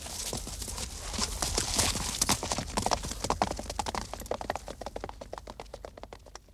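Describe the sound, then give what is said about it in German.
Horse hooves clatter as a rider rides off. Many hoof strikes fall in a steady, quick rhythm that grows sparser and slightly fainter toward the end. “Ich reite also zu meiner Abteilung.”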